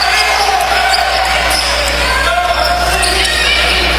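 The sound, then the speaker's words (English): A basketball is dribbled on a drive during a Black Bears home basketball game, with a few bounces over a steady roar of crowd noise. “Eichard with the basketball drive. Puts up a shot.”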